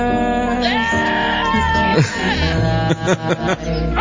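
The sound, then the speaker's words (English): Goats bleating within a song: loud, wavering calls over dense, continuous music, with a few sharp accents near the end. “Those are goats.”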